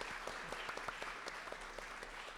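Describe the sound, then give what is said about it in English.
Applause from an audience at a literary panel at Sotheby's: steady, dense clapping that stays faint and even for the whole moment, with no clear rise or fall. “So another round of applause for Jill.”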